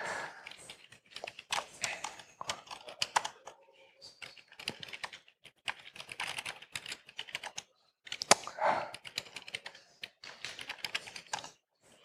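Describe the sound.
A password being typed on a computer keyboard: many quick, clicky keystrokes in irregular clusters separated by short pauses, fairly faint.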